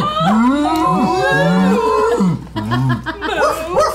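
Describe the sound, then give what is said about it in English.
People imitate cows mooing, with several drawn-out voiced moos overlapping and sliding up and down in pitch before a short break and a few more calls. “your vision blurs and you kind of blink for a second and look around, and Vox Machina is now instead an array of slightly smaller than average cows.”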